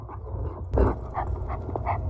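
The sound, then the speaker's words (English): A dog on a walk gives a few short yips and whimpers over a low background hum, with a brief louder bump near the start. “walk the dog”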